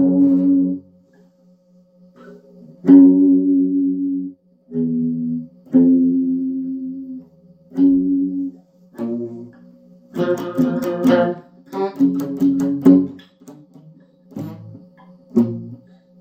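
Guitar chords played through a Stax chorus pedal ring out with a shimmering, wavering tone, struck as separate chords with short pauses between them, about ten in all.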